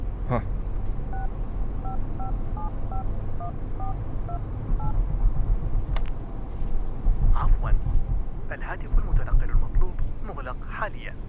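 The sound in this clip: A telephone number tapped out on a keypad, a quick series of short, evenly spaced touch-tone beeps, followed by people talking.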